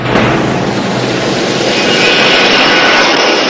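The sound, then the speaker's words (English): An airplane comes in to land with a loud, continuous engine roar. A low drone underlies a broad rushing hiss that brightens and grows slightly fuller as it passes. No one speaks. “The silhouette of a plane coming into land across the moon.”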